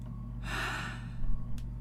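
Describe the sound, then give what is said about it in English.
A deep breath drawn by a panicking person who is told to calm down: one long, airy inhale of about half a second over a steady low hum, then a brief faint click. “Take a deep breath.”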